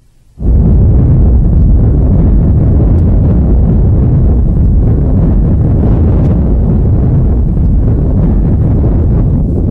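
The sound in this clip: A deep, heavy roar from the atomic bomb explosion of July 16th, 1945, bursting in abruptly after a brief moment of quiet and then rumbling loudly and steadily to the end.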